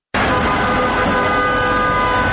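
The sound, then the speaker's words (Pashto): A grey military ambulance with a red light on its roof leaves Bost government hospital. Steady, loud vehicle noise starts abruptly and drones on evenly, with a sustained tone running through it. “د خړ نظامی امبولانس پر سر سره اشاره لګیږي او په صورت د بوس دولتي روغتون څخه د وتلو په حال کې دی”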